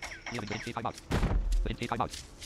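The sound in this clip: Unsuppressed pistol shots ring out in a zombie video game as a loud, sharp burst of gunfire with a heavy low thump. Voices talk before and after the shots.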